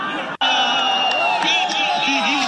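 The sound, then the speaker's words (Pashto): Cricket fans shout and cheer at a cricket final in Kunar's central stadium, a loud, continuous crowd roar with whoops and raised voices after a brief dropout at the start. “دا د کونړ په مرکزی لوبغالي کې د کرکټ پای ته رسیدلو سیالي او ته د راغلو مینوالو د خوخی او د خپلو لوبډلو د هڅولو لپاره د چغو او چکچکو غوونه دي.”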